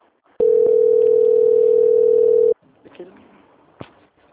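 A telephone call-transfer tone: a single loud, steady mid-pitched beep lasting about two seconds, followed by faint clicks and line noise.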